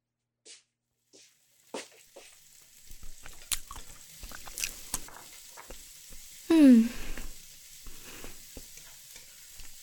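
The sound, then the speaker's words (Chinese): Home cooking in a pan: faint sizzling mixed with scattered clinks, scrapes and stirring noises, and one louder clattering burst partway through. “那你快去做饭吧”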